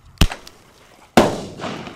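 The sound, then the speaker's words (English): Bird-scaring bangers fired from a two-barrel cap-gun launcher and exploding in midair: two sharp, loud bangs about a second apart, the second followed by a longer, rumbling tail that fades. “He puts one banger in each barrel, pulls the trigger. This firecracker shoots out like 25 feet and explodes in midair. Then he pulls the trigger again.”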